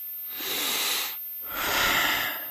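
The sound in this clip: A big breath sounds as two long, breathy rushes of air separated by a short pause, fairly loud and with no talking.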